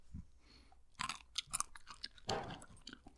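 Moist chewing of a berry, eaten before a sip of lemon juice: a few wet, crunchy bites come in irregular bursts, quiet, with short pauses between them.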